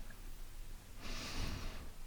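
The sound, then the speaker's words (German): A deep breath in and out through the nose during a guided meditation: a single soft, breathy rush of air in the second half, quiet and heard alone. “Atme tief ein und aus über die Nase.”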